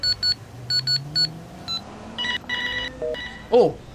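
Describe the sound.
Telephone ringing on an outgoing call: a series of short, high electronic beeps, then longer steady tones that step in pitch, all over a low, rising hum.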